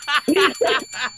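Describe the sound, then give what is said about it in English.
A bell is rung four times in quick succession, each ring a short, bright metallic chime of similar strength, the rings spaced closely with brief gaps between them. “All right, where's my bell?”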